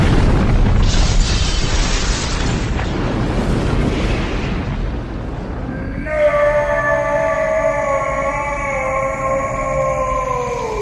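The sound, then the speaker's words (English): A huge explosion tears through a spaceship in a science-fiction audio drama: a loud, dense rumbling roar lasts about six seconds, then gives way to layered, drawn-out tonal whines whose pitch sags slowly. “there is a huge explosion on Sparvel's ship in the next few minutes. Here's what that will sound like.”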